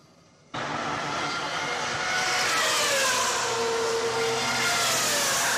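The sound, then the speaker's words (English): Formula One pit stop during a tire change, with racing engine noise: a sudden loud, broad roar that holds steady, with whining engine tones sweeping through it. “And I want you to see how long it takes them to change the tires of the Formula One.”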